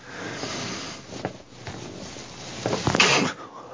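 A sneeze bursts out loud and sharp near the end, rising above a steady background hiss, with a softer breathy sound shortly before it.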